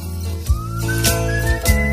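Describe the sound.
A whistled melody glides slowly upward over steady musical backing, with soft low thumps beneath it. The whistle holds a thin, clear tone through the whole two seconds.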